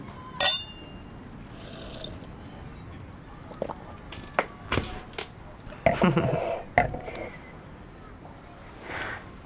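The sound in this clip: Glasses clinking in a toast, one bright ringing clink early on, followed by scattered soft knocks and clatters of tableware at a quiet table.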